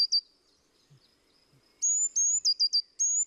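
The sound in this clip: A bird singing: thin, high-pitched chirps, one short note at the start, then after a pause a quick run of several bright notes, each clear over near silence.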